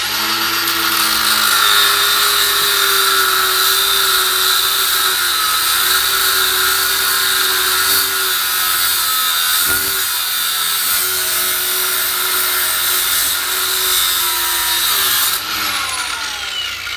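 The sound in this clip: A power tool cuts through metal tube with a loud, steady high-pitched whine that holds almost unbroken for the whole stretch, dipping only briefly twice.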